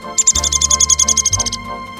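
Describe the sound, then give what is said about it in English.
A downy woodpecker calls in a rapid run of many high, sharp, evenly spaced notes lasting about a second and a half, over a steady low rumble. “That's the call of a downy woodpecker.”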